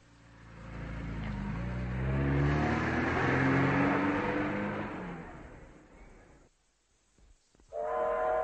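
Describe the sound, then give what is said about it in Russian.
A train pulls away with passengers just aboard, its low engine-like drone carrying rising tonal bands as it gathers speed, swelling loud and steady before dropping away abruptly. “Мы едва успели на поезд. Как только вошли в вагон, он тронулся.”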